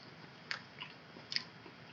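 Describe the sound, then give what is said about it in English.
Biting into a cream-filled sweet: two soft, quiet bites roughly a second apart, with faint squishy chewing in between. “So, yeah, decent amount of cream, just like the other ones. Yep. So, let's see how they taste, if the taste holds up.”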